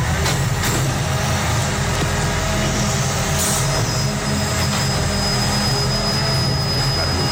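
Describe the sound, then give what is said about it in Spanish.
An old garbage truck works in a city street at night, collecting a cardboard recycling container, with a loud, unbroken engine roar, a couple of sharp clanks and a thin steady whine in the later part. “Camión de recogida de basura. ¿Seguro? Te diría que es de cartón, precisamente, o sea, recogida de contenedor de cartón,”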